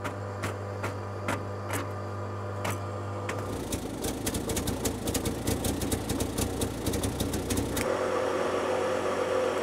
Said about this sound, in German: Und damit läuft der Schlepper auf Holzgas. Problemlos.